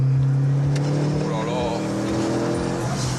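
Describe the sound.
A front-wheel-drive car engine held at about 4000 rpm while driving. It gives a loud, steady, droning hum with strong low harmonics that run unbroken through the whole clip.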